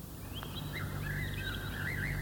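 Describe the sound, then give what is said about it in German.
Calm evening resting song of a common blackbird, a soft, continuous fluting warble with gently wavering pitch, quiet and unhurried over a low steady hum. “Einen solchen Gesang kann man am häufigsten von der Amsel hören, und zwar in der Abenddämmerung.”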